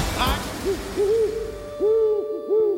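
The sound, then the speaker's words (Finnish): Owl hooting in four short, arched, mid-pitched calls spaced unevenly, preceded by a brief sharp knock, over a quiet background. “Pöllöt valtaavat Limingan.”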